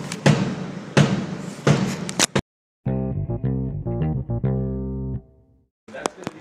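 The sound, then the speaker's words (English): An amplified heartbeat blasts out as three heavy, booming thumps, evenly spaced and loud, with a distorted electronic edge. “he hooks up an amplifier to his heart, so every time he has a heartbeat, it blasts out there to the populace, just like this.”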